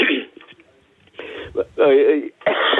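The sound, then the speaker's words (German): Throat clearing and coughing from someone who nearly choked, in a few rough bursts mixed with short stretches of strained voice and pauses between them. “Entschuldigung, jetzt hätte ich mich beinahe verschluckt.”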